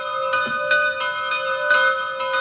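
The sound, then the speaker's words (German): Church bells in Salzburg ring at noon, many overlapping strikes over a loud, sustained ringing hum of layered tones that carries throughout, with no voices. “Das sind die Glocken von heute.”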